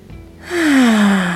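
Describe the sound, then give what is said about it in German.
A single deep, audible breath during a guided breathing exercise: a soft rush of air that swells and holds steady, with a faint voiced tone gliding gently downward. “Nimm 3 tiefe Atemzüge.”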